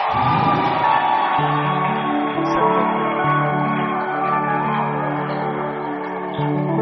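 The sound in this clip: An audience cheers and shouts in acclamation of God, a loud, steady mass of voices that carries on throughout with no pause.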